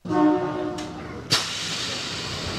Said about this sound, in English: The monorail still whisks passengers from a downtown shopping plaza through a rock and roll museum and into the Seattle center with theaters, museums, and sports venues.